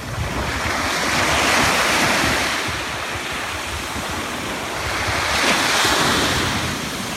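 Ocean waves break on an empty beach below a cliff, with a steady hiss of surf and wind that swells twice into fuller rushing surges.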